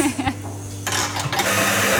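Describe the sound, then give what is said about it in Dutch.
A large professional coffee machine making a cappuccino with plant-based milk: a steady mechanical hum, then a loud, broad hiss that takes over after about a second and keeps going. “Ja, de koffie hier, de grote koffieautomaat. Ja, ja, echt een professionele machine.”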